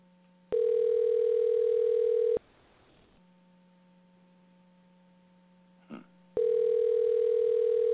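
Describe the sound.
A telephone line tone sounds while a call is being dialed: two long, steady, evenly pitched tones, the second running to the end, separated by a few seconds of low hum with a brief click.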